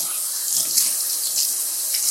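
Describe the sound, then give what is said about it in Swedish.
Running tap water rinses black kale, a Tuscan green, in a steady, bright hiss that stays even throughout without distinct splashes or voices. “Jag vill skölja av den lite först.”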